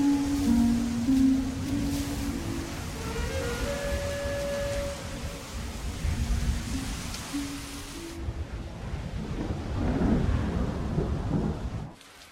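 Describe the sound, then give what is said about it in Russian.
Rain falling as the sky darkens: steady, dense hiss of rainfall with deep low rumbling throughout, louder toward the end before cutting off abruptly. “Затягивает небо. Идет дождь.”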